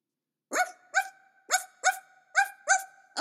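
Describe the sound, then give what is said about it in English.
A dog barks seven times, each bark short and sharp and spaced unevenly across about three seconds, with no other sound between the barks. “Quite a lion, that's a dog.”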